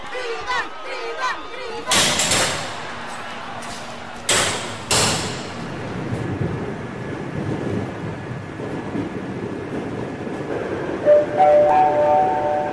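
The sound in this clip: A train named Dridan departs on its inaugural journey. Two loud bursts of broad hissing noise give way to a steady, rolling rumble, and sustained tonal notes join in near the end.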